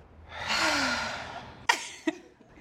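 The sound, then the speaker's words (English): A deep breath drawn in during a moment of gratitude, a long smooth rushing inhale that swells for about a second and fades, followed by two short sharp clicks. “Can we just take a moment for gratitude? Let's give gratitude. One deep breath in.”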